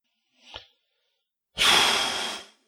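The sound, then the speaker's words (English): A loud, breathy exhale blasts straight into the microphone for about a second, a broad rushing hiss that starts abruptly and tails off. A brief, much fainter sound comes before it. “I probably shouldn't exhale like that on mic. That's going to be fun to edit out later.”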